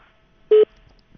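A single short electronic telephone tone sounds on the line as a phone call is cut off, leaving a busy signal. The tone is brief, clear and steady in pitch, with near silence on either side.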